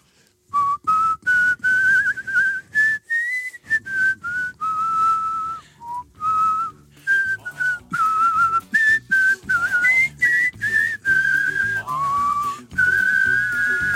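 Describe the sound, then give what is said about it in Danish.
People whistle back and forth to each other in many short melodic phrases that rise and fall in pitch, separated by brief pauses, with no talking. “Vi fløjter til hinanden”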